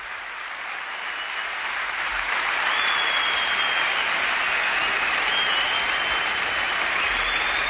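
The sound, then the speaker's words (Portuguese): Dense audience applause in tribute to the late musician Luís Represas. It builds slightly in loudness over the first two seconds, then holds steady and continuous. “Um grande aplauso para Luís Represas, um dos grandes. Merece todas as homenagens.”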